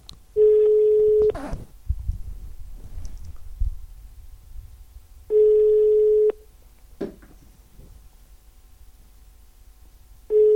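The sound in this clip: A telephone rings unanswered after dialing, with steady buzzing ring tones repeating about every five seconds. Two tones play in full and a third begins at the end, with clicks and low background noise in the gaps.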